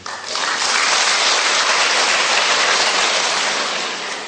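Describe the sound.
An audience at a Buddhist dharma talk applauds after the topic is introduced: loud, dense, steady clapping that holds evenly throughout and eases slightly at the end, with no talk over it.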